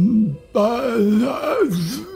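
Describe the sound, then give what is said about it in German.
A person voices an eerie, drawn-out groaning moan. A short phrase comes first, then a longer, louder one whose pitch wavers up and down. “Ihr hört aber auch zur gleichen Zeit ein Stöhnen”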